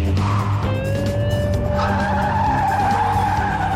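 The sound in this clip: A car is driven off with its tires squealing and skidding: a sustained, shrill rubber screech rides over a loud, steady engine roar throughout.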